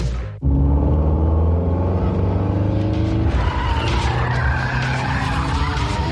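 Car tires screech in a long skid as the car pulls up, a loud sustained squeal over a heavy engine rumble that continues for several seconds.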